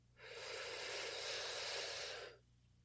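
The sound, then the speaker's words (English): One deep breath during a guided breathing exercise, a smooth, airy rush of air lasting about two seconds that swells, holds steady, then stops. It is faint and heard alone. “Go ahead and take a deep breath in.”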